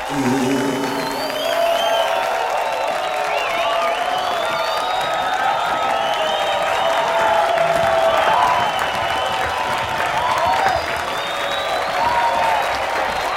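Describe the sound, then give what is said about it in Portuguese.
A theatre audience gives a standing ovation: dense, sustained clapping with scattered whistles and cheers that stays loud and even for about thirteen seconds. “A plateia aplaude de pé.”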